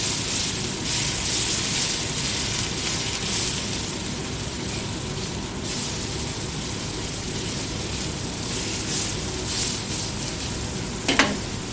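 Burger buns frying and browning in a pan beside steaks, making a steady, even sizzle and hiss throughout, with a brief sharp clatter near the end and no talking.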